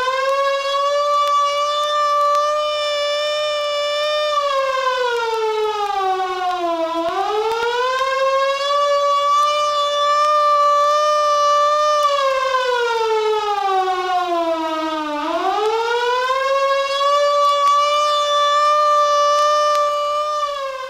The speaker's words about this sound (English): The take cover signal is a wailing tone or a series of short blasts of 3 minutes duration.